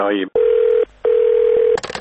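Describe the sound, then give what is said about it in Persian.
Telephone tones from calling a radio station's answering machine: a short voice-like sound opens, then two long, steady, mid-pitched beeps separated by a gap, followed by a quick burst of dialing tones at the end. “تلفن پیامگیر رادیو فردا شب و روز در اختیار شماست.”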